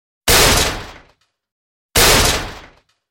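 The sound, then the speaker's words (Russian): Two heavy blows slam against an iron door, struck by animals trying to get in. Each impact is a loud, sharp boom that fades over about a second, with silence in between. “Железная дверь стойчески принимала на себя удары”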